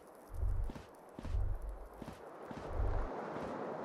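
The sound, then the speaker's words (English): Video game footsteps as a character walks over to a filthy couch: a few heavy, low thuds at a slow, uneven pace, with quieter gaps between steps. “Still holding our forehead, we walk over to the filthy couch.”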